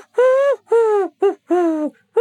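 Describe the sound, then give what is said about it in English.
Wood pigeon cooing in a garden: five low, hollow coos in a rhythmic phrase of long and short notes, clear and fairly loud with no talk over them. “So, as you can hear outside in P-Flax's garden, the lowly call of a wood pigeon.”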